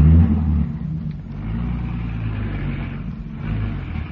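A station wagon's engine drives off with a steady low rumble, loudest in the opening moment and then holding an even, droning level throughout.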